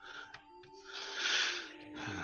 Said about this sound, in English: Yeah, his dying breath is kind of hard to hear. Yep. Nope, it's fine. Rasping is difficult.